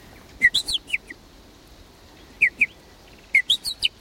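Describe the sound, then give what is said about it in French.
Young blackbird fledglings out of the nest, calling for food: short, high, thin chirps in three quick bursts, each with a few rapid repeated notes, separated by pauses, fairly faint over a quiet background. “les merles, les 4 ou 5 petits qui sont dans le nid, quittent le nid avant d'être émancipés. Ils disent, en fonction du cri et de la répétition de ce cri, du rythme du cri, ils indiquent leur envie de manger.”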